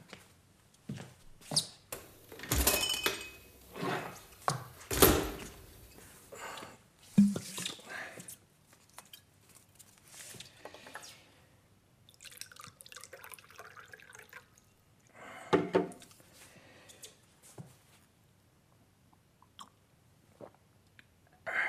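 Someone pouring and having a drink: scattered wet drips, small splashes and squishy swallowing sounds come in irregular bursts. Faint rustles and soft mouth noises fill the gaps between them.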